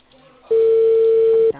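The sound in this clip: A telephone line tone sounds during a call to Cable Perú: a single steady, mid-pitched tone that holds loud for about one second, then stops, with faint background noise before and after.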